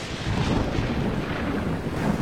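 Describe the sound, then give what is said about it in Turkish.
A sudden thunderstorm over a site where people are building a waterfall, with mud and water starting to flow: a continuous broad roar of rain and wind, steady and dense throughout, with no distinct peaks or voices. “Bugün harikaydı ama birdenbire fırtına çıktı. Çamur ve su akmaya başladı.”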